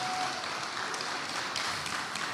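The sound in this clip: A church audience applauds a guest preacher: soft, steady clapping that stays even throughout, with no talk over it.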